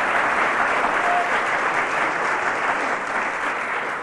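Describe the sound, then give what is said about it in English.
Sustained audience applause after a stage song performance, a thick, even roar of many clapping hands that holds steady and loud throughout. “The cheers from the audience.”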